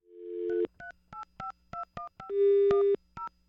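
Telephone dialing tones: a steady dial tone, then a quick run of keypad beeps, a longer sustained tone and one final beep, loud and clear with no voices.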